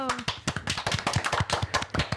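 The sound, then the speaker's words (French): A small group claps for a quiz participant, many separate sharp claps in a quick, slightly irregular rhythm, with a voice briefly audible at the start. “Bien joué, on peut l'applaudir.”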